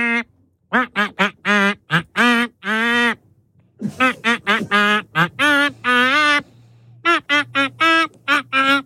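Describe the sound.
A pop song melody quacked in a duck voice: many nasal, buzzy quacking notes in quick rhythmic phrases with shifting pitch, loud and alone, imitating a duck.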